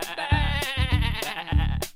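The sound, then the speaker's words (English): A sheep bleating in one long, loud, wavering call with a trembling, buzzy tone that continues without pause. “And where would the farmer get the wool from? All you need is a sheep.”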